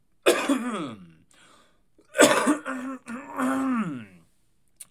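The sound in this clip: Coughing after smoking marijuana, in two hoarse fits: a short harsh burst that trails off, then after a pause a longer, strained coughing spell with raspy, wheezing tones.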